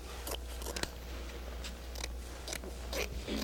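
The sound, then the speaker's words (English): Scissors cutting with several short, crisp snips spaced irregularly, fairly faint and heard alone. “our handy dandy pair of scissors. And let's make whatever you would call one of these, let's make it.”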